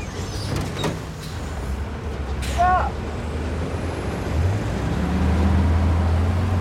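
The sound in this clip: A bus at a military checkpoint, its deep engine rumble running throughout, broken midway by a brief hissing squeal like an air brake release before the engine revs up and holds a louder steady drone as it pulls away.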